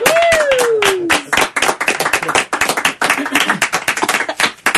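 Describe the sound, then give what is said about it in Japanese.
Party poppers going off at a New Year countdown, heard as a dense burst of sharp snaps and cracks mixed with steady clapping, with a gliding, falling whistle-like tone over the opening second. “コーナーのクラッカー音でかかったですね。びっくりしましたね。”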